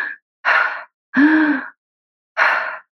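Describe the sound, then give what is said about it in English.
Cyclic hyperventilation breathing, with long inhalations and short exhalations, heard as loud, airy, gasping breaths. A clipped breath at the start is followed by three full breaths, each separated by a brief silence. “that's a cyclic hyperventilation.”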